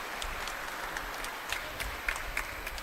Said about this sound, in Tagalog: palakpakan po natin ang salita ng Diyos na ating narinig.